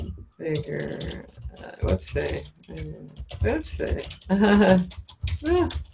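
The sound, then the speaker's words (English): Computer keyboard typing, quick and uneven, runs under a person talking throughout, with clusters of soft clicks blending into the voice. “Whoopsie. I'm just too excited to type properly, but I think I at least began to nail that.”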